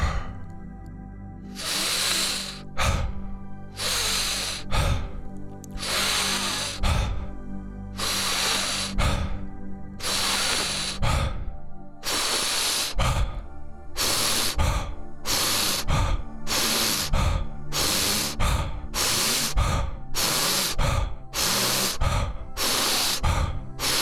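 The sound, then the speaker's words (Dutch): Deep breathing during the second round of a guided breathing exercise: many loud, breathy inhales and exhales in a steady cycle that quickens toward the end, over a low, steady hum. “Ronde 2. Diep in. Laat los. Diep in. Laat los.”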